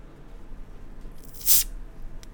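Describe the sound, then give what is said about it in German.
A Fritz Cola bottle being opened: one short, bright fizzy hiss bursts out as the cap comes off, then fades quickly. Near silence surrounds it. “Wir öffnen die Fritz Cola Flasche.”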